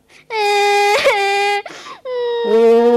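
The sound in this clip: A child cries in a few drawn-out, high wailing sobs, with a brief catch in the breath between the wails.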